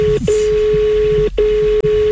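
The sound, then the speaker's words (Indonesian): A telephone line tone sounds as the phone is dialed: a steady single-pitched hum broken by a few brief gaps, over low background hiss. “Oke, coba dulu. Misalnya kita telepon nih.”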